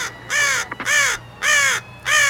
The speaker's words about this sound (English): Within the hour, a black-as-night raven flies over a Star Laboratory surrounded by police cars.